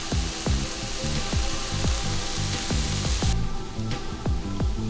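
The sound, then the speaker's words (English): Venison sizzles as it cooks, a steady, bright frying hiss with scattered crackles running throughout. “We got some of our venison cooking here.”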